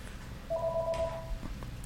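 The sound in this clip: A telephone rings with an incoming call: one short, faint burst of rapidly pulsing electronic tone over a low background hum, with no voices.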